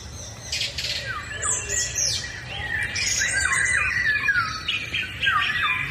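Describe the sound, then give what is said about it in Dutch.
A song thrush sings in a garden from the same branch in the evening, giving repeated clear, varied whistled phrases over a steady low background noise. “Maar de zanglijster bij Liz Stolp in de tuin lijkt zich daar weinig van aan te trekken. Die zingt nog steeds iedere avond. Vanaf dezelfde tak.”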